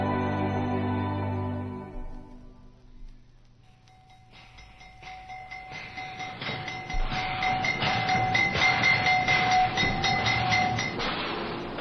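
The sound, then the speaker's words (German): A train arrives. Its low rumble and rhythmic clatter swell steadily as fading music dies away, and a sustained high squeal rides over the noise. “Ein Zug ist gekommen.”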